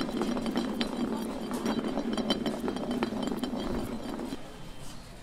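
A glass bottle spins on a surface during a game of truth or dare, giving a steady rattling roll dotted with many small glassy clinks that grows a little quieter near the end.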